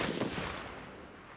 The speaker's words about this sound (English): Why are you two shooting guns inside? What is wrong with you?